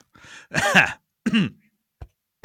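A person clears their throat of something caught in it, with two harsh, rasping bursts, the first longer and louder, followed by a brief faint click. The sounds are loud and close, with no talk.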